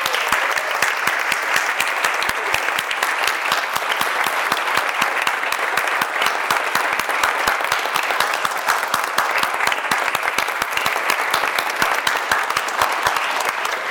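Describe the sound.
Dense, steady applause from a church audience congratulating a confirmation group at a Rite of Confirmation service, with many hands clapping continuously at an even loudness throughout.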